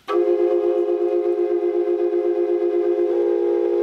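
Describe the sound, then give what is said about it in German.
Sustained beating tones from an ancient Maya quadruple flute, its pipes of slightly differing lengths making the notes vibrate. A loud, steady, wavering drone plays alone, with a small shift in pitch near the end. “Das ist eine Quadrupelflöte. Eine Quadrupelflöte aus der Maya-Zeit.”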